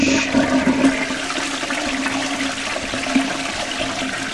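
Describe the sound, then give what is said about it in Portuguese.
A toilet flushes with a loud, steady rush of water that swells in the first second, then keeps churning evenly to the end with no voices. “tu vai lá e ó, dá descarga.”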